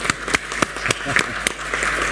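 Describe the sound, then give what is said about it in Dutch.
Applause at a council meeting, thin and scattered: a small group claps in irregular, distinct slaps rather than a full ovation, with a soft background murmur between them. “Ja, een applaus. Doe een applaus.”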